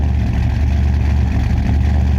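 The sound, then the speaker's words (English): Engine of an old 1980s Ford truck running: a loud, steady, deep rumble with an even low-pitched drone throughout and no voices over it. “Like an old Ford truck from the 80s. Oh, that is so beautiful. Yeah, okay, good-looking truck.”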